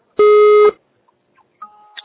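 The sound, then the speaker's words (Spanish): Voicemail recording beep on a Spanish-language answering system, a single loud, steady electronic tone about half a second long, followed by near-silence. “Por favor, deja tu mensaje después del tono. Si necesitas volver a grabar, marca el signo de número y espera instrucciones.”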